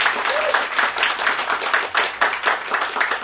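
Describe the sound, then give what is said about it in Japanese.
Sustained applause from a crowd at a live band concert, a dense steady patter of many hands clapping with rhythmic surges, fairly loud throughout with no talk. “大きな拍手”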